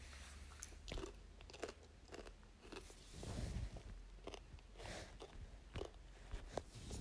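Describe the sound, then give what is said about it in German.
Popcorn crunching as a person eats it alone in a living room: many crisp, irregular bites and chews, moderately loud, with no talking. “Heute gibt es verschiedene Arten von Leuten, wenn sie Popcorn essen.”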